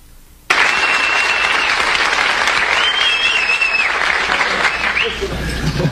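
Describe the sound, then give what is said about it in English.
A studio audience on The Tonight Show gives a standing ovation to the Apollo 13 crew in 1970. Dense, loud clapping breaks out abruptly after a brief quiet moment and stays thick and steady to the end. “that is the first time since I've been doing this show in 7.5 years that I've seen an entire studio audience get to their feet and applaud.”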